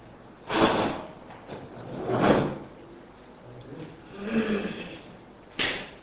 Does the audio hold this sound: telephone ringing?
no

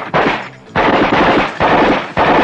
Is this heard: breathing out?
no

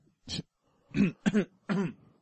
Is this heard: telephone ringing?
no

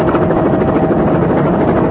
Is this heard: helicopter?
yes

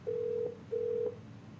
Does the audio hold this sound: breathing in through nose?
no

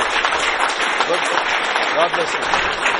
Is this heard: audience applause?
yes

